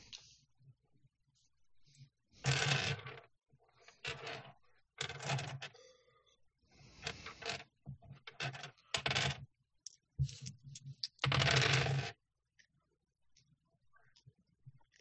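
Dice are rolled for a tabletop role-playing game, including a pool of black and hunger dice, in several separate bursts of rattling, tumbling clatter with quiet gaps between them.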